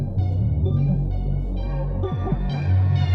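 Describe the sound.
Hip-hop track playing with a loud, throbbing bass beat under layered tonal synth lines, holding steady throughout with no voices.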